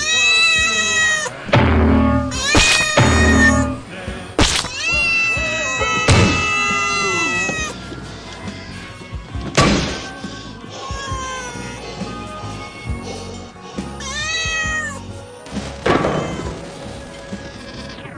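A cat meows over and over, with many drawn-out, loud, wailing cries of varying pitch separated by short pauses.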